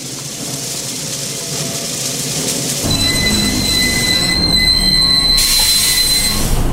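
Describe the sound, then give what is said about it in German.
Train wheels squeal on straight rails as the train comes to a stop: a low rolling rumble gives way to steady, piercing high-pitched squealing tones that hold continuously to the end. “Der Zug hielt.”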